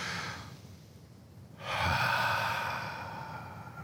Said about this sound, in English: I want us to take a big, deep breath and exhale.